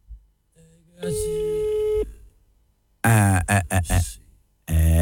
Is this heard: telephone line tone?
yes